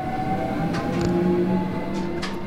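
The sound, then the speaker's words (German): A small cable car running up a mountain gives off a steady mechanical hum with a sustained whine, broken by a few faint clanks and rattles. “Seider steigt ins Bändli und fährt auf den Wiesiberg.”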